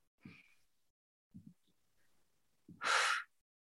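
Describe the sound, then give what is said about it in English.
A deep, letting-go breath during a calming relaxation exercise ends in a soft, breathy exhale of about half a second. It follows a few faint, low breathy sounds and is quiet overall. “A nice deep letting go breath.”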